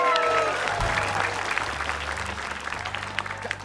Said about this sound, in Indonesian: Kita beri tepuk tangan dong untuk Aki.